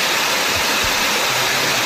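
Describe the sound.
Water flows through the Barranco de los Cernícalos ravine in Telde, Gran Canaria, running again after rains. It makes a loud, steady, hissing rush with no breaks, and no voices are heard.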